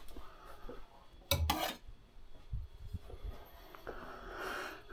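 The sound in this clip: A big knife cuts food into roughly one-inch cubes, giving one sharp rasping slice followed by a few soft, low thuds, all fairly quiet.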